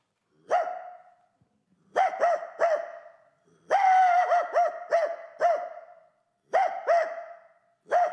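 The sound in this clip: A person's voice imitates a dog barking, producing many sharp, loud barks in clusters of two to four with brief pauses between them.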